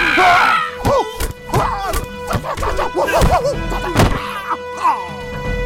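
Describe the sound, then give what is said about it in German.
Punches landing in a German radio drama, several heavy thuds and whacks scattered among agitated, shouting voices. “Bitte nicht nochmal schlagen, Multiman!”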